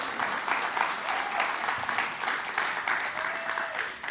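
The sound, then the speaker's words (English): A church audience applauds as the preacher comes up to preach at a morning service: steady, dense clapping holds at an even level for the whole four seconds, with no voices over it. “will you guys welcome Pastor Stephen up this morning and give him a hand as he comes and preaches to you this morning”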